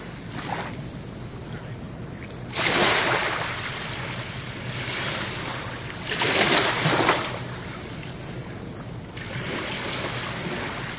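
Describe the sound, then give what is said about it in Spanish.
Sea waves wash onto an island shore in a steady rushing hiss, swelling into two louder surges of surf, with wind noise buffeting underneath. “Sonido del mar.”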